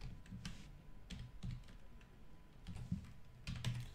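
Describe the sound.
Computer keyboard typing while a stock portfolio is written out: quick, irregular, soft key clicks in short bursts with brief pauses, faint and without voices.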